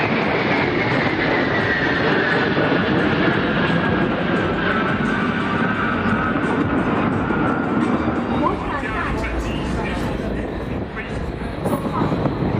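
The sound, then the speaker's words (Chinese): Two J-16 fighter jets fly overhead in an aerial refueling formation during a flying display. Their loud, continuous roar is broad and rushing, and a whining tone slowly falls in pitch. “看这两架歼十六从我们的上空飞过，一个空中加油队形。”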